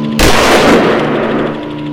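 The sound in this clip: Gunfire aimed at a fleeing target, with a pilot bringing the aircraft in close: a sudden loud, sharp burst opens the sound, followed by a sustained, noisy roar that slowly eases off.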